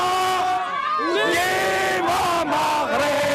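Moroccan fans in Rabat celebrate the national women's football team reaching the semi-final of the Women's Africa Cup of Nations, with loud, sustained crowd shouting and chanting and rising and falling cries throughout.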